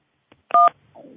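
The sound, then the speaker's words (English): A single telephone keypad tone, pressed while entering a PIN, sounds as one short, clear two-pitch beep, followed by a faint low murmur. “enter your subscriber PIN, followed by the pound sign.”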